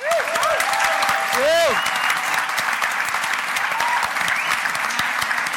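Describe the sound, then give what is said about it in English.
Audience applause and cheering as a guest is welcomed onto a stage, continuous dense clapping throughout with a few high whistles and shouts near the start. “You please all go absolutely crazy and welcome to the stage the one and only Mr. Colm Hayes.”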